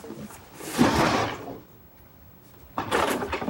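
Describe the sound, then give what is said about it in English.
A front door being opened after junk is cleared aside from it, heard as a couple of broad scraping, rustling bursts separated by a quieter gap. “and opens the door.”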